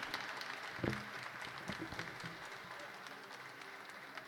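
Faint applause from an audience for three choirs at a Misa Criolla performance, a soft, even patter of many hands with one brief louder clap near the start.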